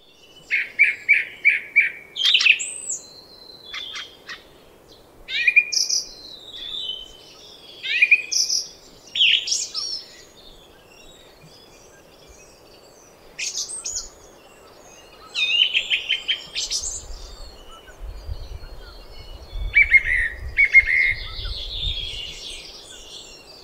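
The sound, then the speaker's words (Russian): A song thrush sings in bursts of clear, varied whistled phrases, some notes repeated several times in quick succession, separated by short pauses, with a low rumble underneath near the end. “Певчий дрозд.”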